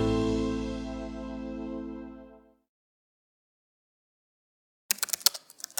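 Typing on a computer keyboard comes in as a short burst of rapid, sharp clicks after a sustained tone fades away into silence.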